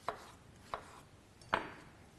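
Three sharp knife chops as cucumber is prepared for gazpacho. They are evenly spaced, the last one strongest, with no talking.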